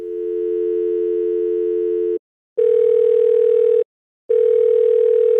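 Ring tones of a telephone call going through to voicemail: a long steady tone, then two shorter bursts of a slightly higher tone separated by brief silent gaps, with no voices.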